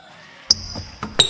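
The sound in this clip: Basketball bouncing on a court in a radio jingle: a few sharp, hard thumps at an uneven rhythm, with a thin high ringing tone carrying on after the first hit.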